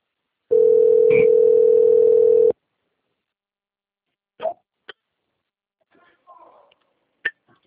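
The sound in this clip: Telephone dial tone while a call is being placed: a steady, unbroken mid-pitched tone holds for about two seconds, then stops, followed by a few short clicks and faint, scattered noises.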